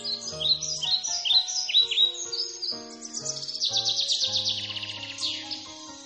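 A blackbird sings a run of varied, bright chirping and fluting phrases, loud and clear, with soft low sustained tones underneath.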